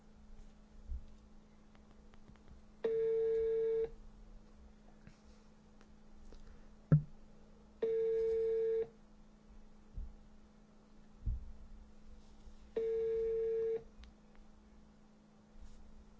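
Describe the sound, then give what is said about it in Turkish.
Telephone ringing tones on a call that is not getting through: three long, steady beeps of about a second each, evenly spaced several seconds apart, over a faint low hum with a few soft clicks. “Dur bir tane şunu arayayım o zaman ya. Bu ne yapıyor hele bir, dur. Şunu arıyorum, bekleyin.”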